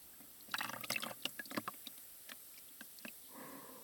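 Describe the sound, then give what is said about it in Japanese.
Hot water is poured over a person's body during a massage, giving a faint scatter of soft splashes and drips. A quiet, steady watery hiss follows at the end. “お湯に使っていないところにお湯をおかけしながらマッサージを行います。”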